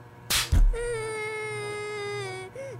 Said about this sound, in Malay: Dah, dah, dah. Jangan nangis. Jangan nangis.